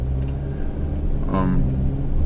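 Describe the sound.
A car pulls away from a green light on a small street of low buildings in Mountain View, heard as a steady low engine rumble that swells slightly toward the end.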